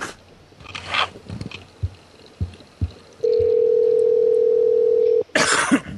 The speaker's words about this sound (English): Phone's ringing.